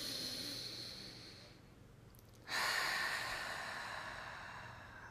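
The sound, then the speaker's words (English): A deep breath in and a long breath out, soft airy breathing alone with no talk; the second breath starts abruptly and trails off slowly. “take a deep breath in, long breath out. Let's take another breath.”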